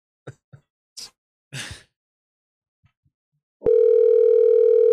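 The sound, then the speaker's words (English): Ringback tone of an outgoing phone call that keeps ringing with no voicemail: a single loud, steady electronic tone starts late and holds unbroken to the end, after a few short, scattered sounds. “Ring number two. This is like one without a voicemail. Just ring.”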